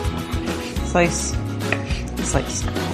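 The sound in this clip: A knife slicing olives on a cutting board while ingredients are prepared: a few crisp, irregular chops with hard knocks on the board at moderate loudness.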